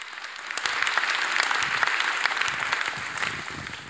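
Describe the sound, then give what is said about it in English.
Church audience at Hope Bible Church applauding a visiting senior pastor from Harvest Bible Chapel, Mississauga: dense, steady clapping that holds an even level for the whole stretch, with no voices standing out above it. “Thank you so much for that warm welcome.”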